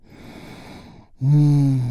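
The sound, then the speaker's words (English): A deep breath is taken and released during a guided relaxation exercise: a soft, airy intake followed by a loud, voiced sighing exhale that holds steady and eases off slightly at the end. “deep, healing breath with me right now. Here we go. And release.”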